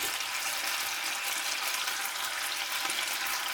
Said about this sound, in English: So now that this has mostly, the alcohol's mostly cooked off, and now the onions are getting really jammy,